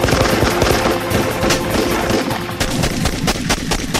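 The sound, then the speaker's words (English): Gunfire, a dense, continuous barrage of loud cracks and bangs that blur together with no clear single shots, with no voices. “that guy told you and me that he was going to shoot you directly in the face, and you shot him in the face.”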